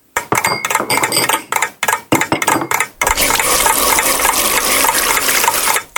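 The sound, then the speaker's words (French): Water filling a glass, choppy splashing bursts at first, then a steady, loud rushing pour. “Moi, j'ai rempli un verre d'eau. Il était plein.”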